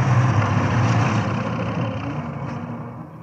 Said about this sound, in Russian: Машина трогается с места.